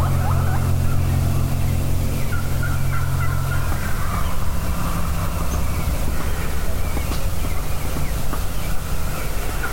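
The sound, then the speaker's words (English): An excited wild turkey gobbler gobbles far off, faint and warbling against a steady low droning hum that fades partway through. “She's got a gobbler way far out, all excited.”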